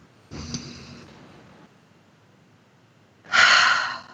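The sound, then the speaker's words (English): Deep breaths taken during a guided tapping and affirmation exercise: a softer breathy draw near the start, a long quiet pause, then a louder, fuller rush of air lasting under a second near the end. “Deep breath.”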